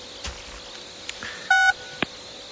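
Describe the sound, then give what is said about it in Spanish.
A single telephone keypad tone, a short, steady, loud two-note beep, sounds while a phone call is being dialed. A few soft clicks like key presses come before and after it. “Hacer una última llamada.”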